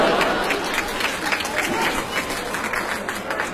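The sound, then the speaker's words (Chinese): Applause from a studio audience on a Beijing arts radio programme: a dense, continuous patter of many hands clapping, fairly even in level, with some voices mixed in. “就你们为什么鼓掌？我没明白什么意思”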